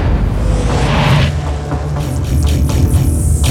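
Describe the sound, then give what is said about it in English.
Gunfire booms aimed at a moving vehicle, heard over a steady, heavy rumble of driving noise, with a few sharp blasts cracking through in the second half. “They're shooting at us. Of course they are. That's what they do. And if you keep driving in a straight line, they'll hit us too.”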